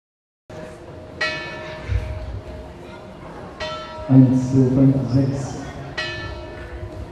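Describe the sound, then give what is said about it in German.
Church bells ring in a bell tower in Hettstedt, with a few loud strikes spaced unevenly apart, each leaving a long, shimmering metallic hum that lingers between strokes. “Seit 10 Jahren bemüht sich die St. Jakobi-Gemeinde Hettstedt um die Vervollständigung von Glockenspiel und Elektrifizierung von Glockenstuhl.”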